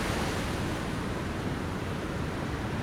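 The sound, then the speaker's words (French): Ocean waves breaking at high tide, a dense continuous wash of surf with no distinct separate crashes, steady and moderately loud from start to finish. “Cette vague, là, elle est un peu, là c'est marée haute, donc il n'y a pas vraiment d'épaule, c'est-à-dire du mur tout le long, toute la face, tu vois.”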